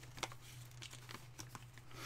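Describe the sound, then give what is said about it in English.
Soft crinkling and rustling as the manual is pulled out of a Sonic Unleashed game case, a few faint scratchy bursts scattered over a steady low hum. “Why don't you just open that up, and why don't you pull that manual out of there?”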